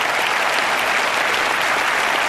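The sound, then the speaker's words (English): Audience applause during a speech at a fundraising event, a loud, dense and even wash of clapping with no talk over it. “Let's clap. We're going to get one together.”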